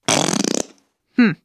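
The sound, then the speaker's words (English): A whoopee cushion lets out a loud, rasping, fluttering buzz for just over half a second, then a much shorter, tonal second burst follows after a brief pause. “Maybe you thought that sound was a fart, but it's actually a whoopee cushion.”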